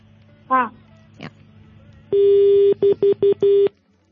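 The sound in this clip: A telephone call ends with a disconnect tone: one long electronic beep followed by four short beeps at the same steady pitch, after two brief warbling chirps.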